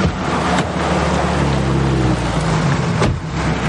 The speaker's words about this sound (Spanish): Llegan cuatro camiones decorados con luces de colores y se detienen ante ellos.